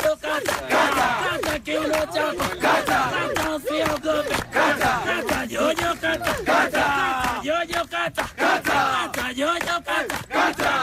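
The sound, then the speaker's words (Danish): Around sixty helpers on a Kilimanjaro charity climb chant and sing together halfway up the mountain. A loud, continuous group of voices sings in a strong, repeating rhythm with call-like phrases throughout. “Det er alle de hjælpere, der er omkring 60 hjælpere med hele holdet, som jo skal til tops på Kilimanjaro til fordel for Børneulykkesfonden.”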